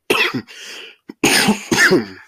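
A smoker's harsh, hacking cough in several loud, raspy bursts, with a brief throat-clearing catch between them. No talk is heard.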